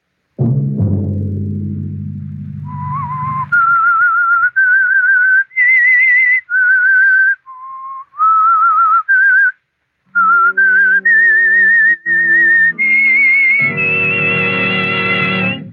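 The eerie whistled theme of the radio drama The Whistler: after a low orchestral chord, a lone whistler carries a melody of held notes stepping up and down, later joined by swelling orchestral backing.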